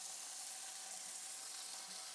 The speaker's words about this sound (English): Oh, that's a gratifyingly? Gratifyingly sizzly sound.